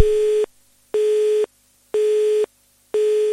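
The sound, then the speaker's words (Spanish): Telephone busy signal after a dropped call: four identical steady mid-pitched beeps, each about half a second long, separated by equal silent gaps in an even, repeating rhythm. “acabamos de perder la llamada. Vamos a intentar volver a recuperarla.”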